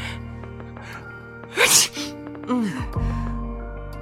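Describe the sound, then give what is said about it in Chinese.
A single sharp sneeze from a person getting ready to head out on a cold day. It is a short, loud burst that rises above steady background music. “在那个喷嚏之后”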